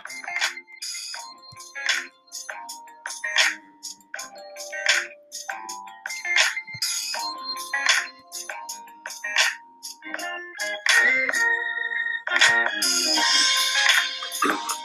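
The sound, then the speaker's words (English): A melodic telephone ringtone signals an incoming call, with many short bright notes repeating in a steady pattern and a denser, brighter burst near the end. No voices are heard. “I'm going to take a call right now.”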